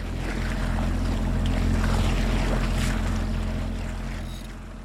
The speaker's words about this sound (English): The hauling up of the mainsail, the cutting of the engine, and the sudden ugliness of diesel gives way to wind and sea.